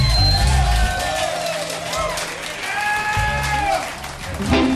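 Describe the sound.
Audience applause and cheering for a band at a live show: sustained loud clapping mixed with whoops and raised voices, swelling and easing over about five seconds.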